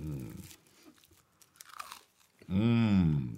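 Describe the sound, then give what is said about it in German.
Crunching bites into toasted brioche topped with goose foie gras, with a few crisp, irregular crunches and quiet chewing between them. A short voiced hum comes before the bites, and a louder drawn-out vocal sound follows them. “Das ist die beste Foie gras, die ich je gegessen habe.”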